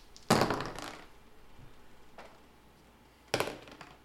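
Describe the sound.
Dice roll on a tabletop in two short clattering bursts of taps and thunks, the first near the start and the second near the end, with quiet between.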